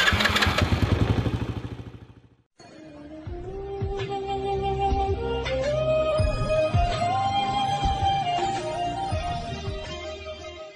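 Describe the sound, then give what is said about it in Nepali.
A motorbike starts and rides off slowly. A loud engine burst breaks off briefly, then a steady mid-pitched engine drone follows and rises slightly as the bike pulls away. “मलाई समाऊ है, म बिस्तारै bike चलाउँछु।”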